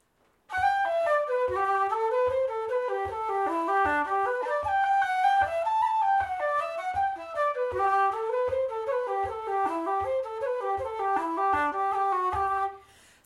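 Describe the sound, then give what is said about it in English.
A flute plays the first part of a folk tune as one unbroken run of quick, even notes. There are no breaths or pauses for about twelve seconds, and the tune stops abruptly at the end. “Here's the A part of Swinging on a Gate with no breaths in the middle. No phrasing.”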